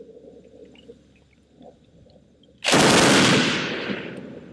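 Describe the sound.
A loud burst of automatic rifle fire from a rifle with a 20-round box magazine, a bipod and an action that recoils back into the stock. It breaks out abruptly after faint low rumbling, then roars as a sustained, dense crackle that slowly tapers.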